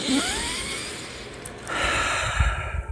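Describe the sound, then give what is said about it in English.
A deep inhale through the nose: a steady, breathy rush of air lasting about three seconds that swells louder partway through, with no voices. “Inhaling that good ass prana, baby.”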